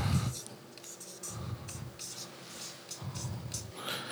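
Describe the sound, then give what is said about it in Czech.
A marker writes two words on a writing surface during a seminar: several short bursts of squeaky, scratchy strokes separated by brief pauses, moderately loud and uneven in rhythm. “to napíšu dvouma slovama a píšící barvou”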